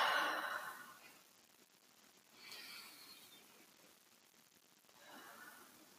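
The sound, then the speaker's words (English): Slow deep breaths taken during a calming exercise, heard as a few faint, soft swells of air with quiet pauses between them. “Take a couple of deep breaths.”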